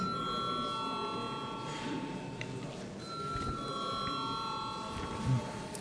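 An electric bell rings in a parliament session to call members to a vote. Its sustained, high tone comes in two long stretches with a short gap between them, faint over a low background murmur.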